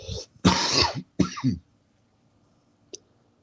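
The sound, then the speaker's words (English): Harsh coughing from a person hacking to clear their chest: two loud, raspy coughs in quick succession, then a faint, short cough after a pause. “Excuse me, had to hack up a lung real quick.”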